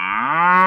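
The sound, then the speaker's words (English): A cow mooing as a sound effect: a single loud, drawn-out, throaty low moo with a rich harmonic tone that rises slightly in pitch, heard alone. “That's a cow”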